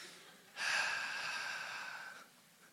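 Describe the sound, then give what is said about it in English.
A deep breath, heard as one long, breathy rush of air that swells quickly, holds steadily for under two seconds, then stops. It sounds alone against near silence. “I feel like we're supposed to inhale and exhale.”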